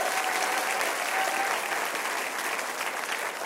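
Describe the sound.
A church audience claps and cheers in a steady, dense wash of applause for its prison ministry campuses, holding an even level before easing slightly at the end.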